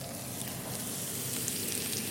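Minced garlic and ginger fry in hot oil with cumin in a pan, giving a steady, dense sizzling hiss with fine crackles throughout.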